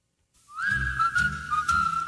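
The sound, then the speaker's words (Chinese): Light, cheerful whistling from an old 1958 English-language song about the moon: a clear, sustained melody line over soft accompanying music, entering after a brief silence. “好轻快嘅吹口哨声。”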